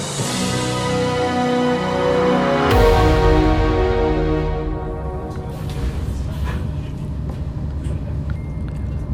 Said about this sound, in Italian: Siamo partiti, la prima parte del viaggio si fa in treno.